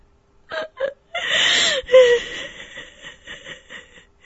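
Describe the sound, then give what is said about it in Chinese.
A woman crying bitterly: two short sobbing gasps, then a long strained wail that breaks into a higher, quavering cry, trailing off into many faint shuddering sobs. “晨曦痛哭了起来”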